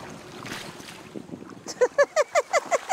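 A folding kayak is paddled on water amid wind noise. The second half brings a quick, regular run of about eight squeaking knocks that grow louder.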